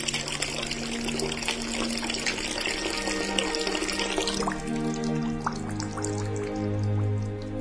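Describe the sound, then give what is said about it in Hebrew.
Water poured by the high priest from a golden jug over his hands and feet trickles and splashes continuously. Midway the pour changes character, with heavier, lower gurgling toward the end. “שימו לב שהכהן הגדול שופך מתוך קיתון של זהב המונח על ידו, על ידיו ורגליו במים טהורים”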